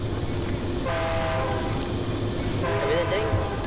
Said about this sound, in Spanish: A lo lejos el tren se acerca a toda velocidad.